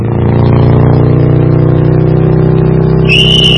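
A motorcycle comes at speed with a loud, steady engine drone and rich low harmonics, and a shrill, high sustained tone cuts in near the end.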